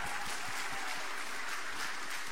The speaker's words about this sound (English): Give them one more round of applause.